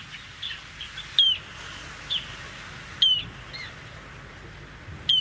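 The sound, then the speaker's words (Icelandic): Bird giving shrill, piercing peeps: four sharp, high calls at irregular intervals, with a few fainter chirps between them over a quiet background hiss. “Hljóðið í þessum fugli er svona.”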